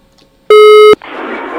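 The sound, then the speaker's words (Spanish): A busy tone after a dropped phone call to a hardware store comes as one loud, steady beep of just under half a second, followed by a rush of noise. “Se cayó la llamada y no nos atiende la ferretería.”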